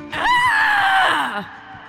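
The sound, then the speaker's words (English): A loud vocal howl voiced for a woman character, a sustained high cry lasting about a second before its pitch slides downward at the end. “Violet lets out a howl.”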